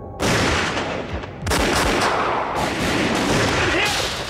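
Gunfire during a police shootout with an armed suspect at a side window: a loud, dense barrage of overlapping bursts that runs almost the whole time and drops back only briefly before it surges again.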